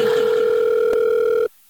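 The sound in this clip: A telephone dial tone plays while a call is being placed: a steady, unbroken, mid-pitched hum for about a second and a half that then cuts off abruptly into near silence.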